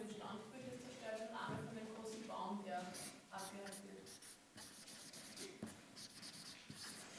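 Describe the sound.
Handwriting with a pen or marker makes faint, scratchy strokes in short bursts. People talk over the first part.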